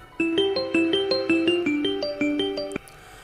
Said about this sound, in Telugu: అప్పుడే ఫోన్ మోగింది